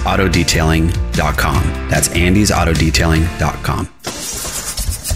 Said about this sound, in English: Ugh, that sound is a major headache. For diesel truck and fleet owners, a struggling engine means lost time,